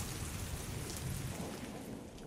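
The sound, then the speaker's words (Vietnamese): Rain during a thunderstorm: a dense, continuous hiss of heavy rainfall that holds steady and even throughout, with no distinct thunder claps. “Look at the rain. That must be a thunderstorm. Yeah, it looks pretty bad. How long has it been raining? It has been raining for 2 hours.”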